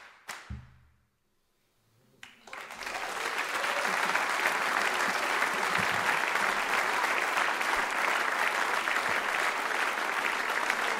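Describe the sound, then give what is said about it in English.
Hand-clapping applause from an audience at a live music show. A couple of sharp knocks come first, then the clapping swells in and holds as a loud, dense, even patter to the end. “Oh, clap hands.”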